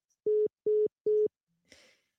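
Phone line tone after the caller hangs up: three short, evenly spaced beeps at a steady mid pitch, followed by a brief soft burst of noise.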